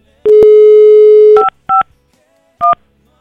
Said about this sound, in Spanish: Okay, primer intento fallido. Vamos a volverla a marcar